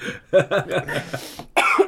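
A person coughs in a few short, rasping voiced bursts, then gives a harsher, breathier final cough.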